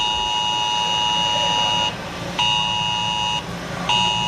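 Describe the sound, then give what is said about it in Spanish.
Alert for a forest fire drill sounding in Alcuéscar: a loud, steady electronic buzzing tone that cuts out briefly and resumes a few times in an on-off pattern, with no voices. “Suena esa alerta en Alcuéscar. Pocos minutos después, los vecinos del barrio de La Fora comienzan a salir de sus casas”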